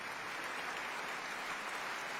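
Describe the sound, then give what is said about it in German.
Dense, steady applause from a concert audience in a Berlin concert hall after a piano performance, an even wash of clapping with no breaks or voices. “Der Applaus ist groß in der Berliner Philharmonie”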